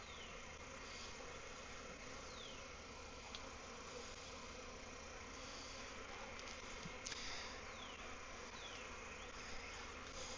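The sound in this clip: Bees in an open beehive full of brood give a continuous, faint droning buzz, with occasional single bees whining past over the steady hum.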